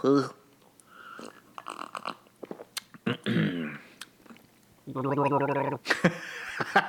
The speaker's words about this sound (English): Isn't that what the professionals do? They do a nice gargle? Yeah, a nice gargle is always important when you're getting the flavor of the beer, for sure.